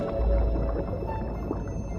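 Sperm whales vocalize underwater among a pod of roughly three hundred. A dense, murky wash of low rumbling noise carries faint tonal traces, steady and fairly quiet throughout.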